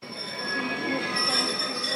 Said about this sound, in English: The train from the Donbas pulls into the central eastern town of Dnipro for a 45-minute stop each evening.